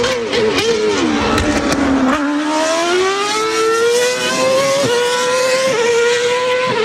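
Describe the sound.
A Formula 1 race car engine roars with a loud, high-pitched whine. Its pitch sinks briefly, then climbs steadily through the rest of the run, with a couple of short dips along the way.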